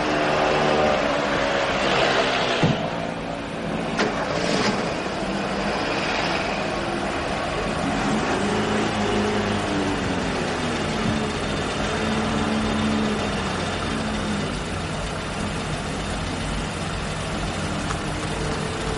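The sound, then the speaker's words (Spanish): A car engine rumbles steadily and low throughout as men get into a car and leave outside a building in a 1989 drama film. The noise stays even, with no clear fade. “Vuelve a mirar hacia el edificio y ve a los hombres subir a un coche y marcharse.”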